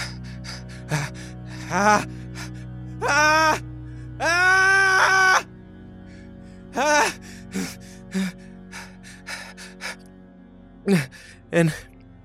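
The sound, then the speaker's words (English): Labored breathing from a man standing over a body after a knife fight, heard as many ragged, voiced gasps and groans, some short and some long and drawn out, separated by quiet pauses. “I think there's like labored breathing”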